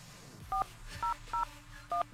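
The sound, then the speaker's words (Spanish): A telephone number is dialed as four touch-tone beeps, each short and steady, spaced unevenly over a low background hum, with no talking. “A ver. Vamos a llamarle.”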